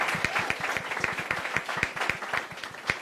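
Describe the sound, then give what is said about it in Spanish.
Audience applause for the director at a high school's 25th anniversary event: dense, steady clapping made of many overlapping hand claps at moderate loudness throughout. “Aplauso, por favor, para el director de esta preparatoria,”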